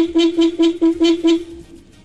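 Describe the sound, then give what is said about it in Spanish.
A car horn honks in a quick, rhythmic run of short, loud toots on one steady mid-pitched tone, then falls quiet. “¡Me tocaron el pito! Papi, tóqueselo otra vez, tóqueselo otra vez, otra.”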